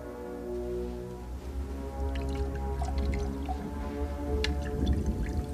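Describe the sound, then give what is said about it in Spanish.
Drink poured into a glass inside a desert tent, a soft liquid trickle with faint dripping over a steady low hum, continuous and fairly quiet. “En la jaima, Marion está sentada frente a Belloc, que sirve bebida.”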